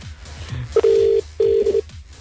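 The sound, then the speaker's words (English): Ringback tone while phoning someone back: two bursts of a steady mid-pitched tone over a low background, the second burst breaking into short pulses at its end. “All right, I'll call him back.”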